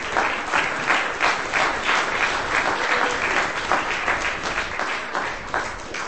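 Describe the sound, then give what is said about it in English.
Audience applause for a performer at a reading, dense and steady clapping that holds at an even level from start to finish. “Michael Bradley, ladies and gentlemen, give him a hand.”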